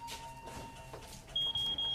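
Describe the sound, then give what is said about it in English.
A smoke detector set off by bits of burning paper gives three sharp, high-pitched beeps in quick succession near the end, over a faint, low background. “Now the two sit on the couch while a few women use candles to burn bits of paper throughout the space. One woman smiles at David. They're gonna set up the smoke detector.”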